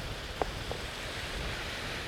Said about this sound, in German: Deswegen bleiben wir ganz einfach hier am Strand sitzen und schauen uns die Wellen an.